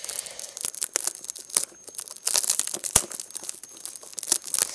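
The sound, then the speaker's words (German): Hard plastic packaging film is torn open, producing irregular rips, crackles and crinkles in quick bursts with brief pauses between them. No one talks. “Die Packung da ist ja aber ganz schön hart. Oh nein, das wollte ich eigentlich nicht zerreißen.”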